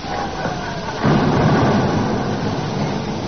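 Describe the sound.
Rockets and bombs explode in wartime as a low, continuous rumbling roar. It swells louder after the first second and holds steady without distinct separate blasts.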